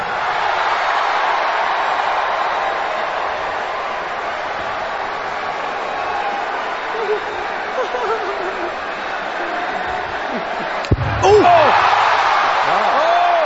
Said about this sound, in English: That sound you heard was a slap across the face.